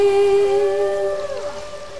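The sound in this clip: Humpback whale song from a 1970 record that pairs it with a traditional whaling song: a long, loud tonal moan with rich harmonics, holding a steady pitch, then sliding downward near the end.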